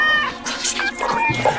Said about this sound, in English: The cat yanks it free and goes.